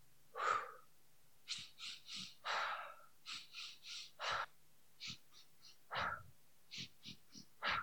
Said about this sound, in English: So it will sound something like this for your listeners. So three inhales, one exhale.